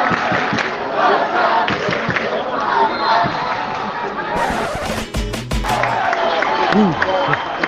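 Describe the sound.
Football supporters at a Barça B match against Castellón, chanting and singing as a mass in the stadium, a loud, dense wall of voices that swells in waves throughout.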